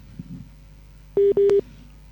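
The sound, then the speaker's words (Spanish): A telephone line tone after a dropped call: two short, loud, steady electronic beeps in quick succession, the second slightly longer, heard alone with no talk. “lastimosamente se fue la llamada con la doctora”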